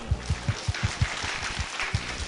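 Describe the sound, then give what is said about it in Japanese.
Applause from an audience at a talk: dense, moderately loud clapping with many heavier low thuds spaced through it at a quick, fairly regular pace. “皆さん拍手”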